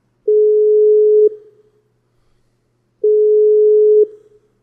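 The ringing tone of an unanswered telephone call sounds as two steady, fairly loud mid-pitched beeps of about one second each, roughly three seconds apart. No other sound is heard between them.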